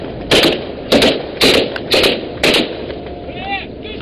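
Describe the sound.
Machine guns are fired by pirates attacking a tanker after drawing alongside in a speedboat: five short, sharp bursts of rapid gunfire at an even, regular pace, followed by a quieter tail.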